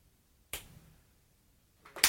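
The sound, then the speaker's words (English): Fists punching into open palms make two sharp, dry slaps separated by a quiet gap of about a second and a half. The second impact is louder and brighter than the first. “That's the sound of hundreds of fists patting their hand.”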